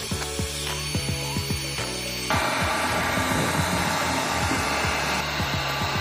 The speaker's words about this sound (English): We're gonna use this heat gun to speed up the drying process.